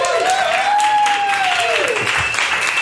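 Applause from a live comedy audience in Berlin welcoming a special guest to the stage, dense and continuous for the whole clip, with a sustained gliding tone arcing above the clapping.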